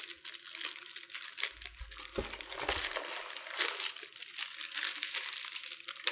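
Thin plastic crinkles as a popsicle wrapper is torn open, a continuous dry rustle and crackle that runs for several seconds, with a few sharper crunches along the way.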